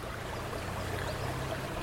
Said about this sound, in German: Und hier also, 2480 Meter über dem Meeresspiegel, entspringt der Ter, Kataloniens zweitgrößter Fluss.